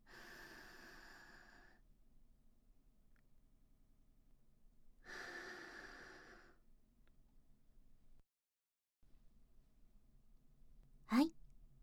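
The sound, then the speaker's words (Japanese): Slow, deep breathing: two long, airy breaths, each about a second and a half, faint and unaccompanied, with a long quiet gap between them. “深呼吸はここまででいいよ。”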